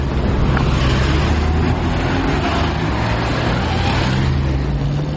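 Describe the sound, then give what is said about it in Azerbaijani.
Car traffic on city streets makes a dense, steady rumble of engines and tyres with no breaks, and passing vehicles blend into a constant loud wash of noise. “Amma bu iki gündə şəhərin küçələrində maşınların sayı hər zamanki qədərdir.”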